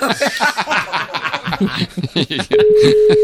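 A telephone dial tone sets in as a call is placed: after a few seconds of chatter and chuckling, a steady, unbroken tone holds to the end.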